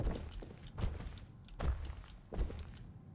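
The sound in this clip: Footsteps of a video game character jogging down a stairwell: four heavy, evenly spaced thuds over a low rumbling background, with no talking.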